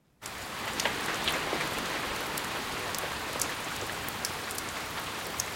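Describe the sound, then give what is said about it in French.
Rain falling in a courtyard begins abruptly and turns into a dense, even hiss of drops hitting surfaces. Occasional sharper drips stand out, and it stays steady and fairly soft throughout. “La pluie, dans la cour où je la regarde tomber, descend à des allures très diverses.”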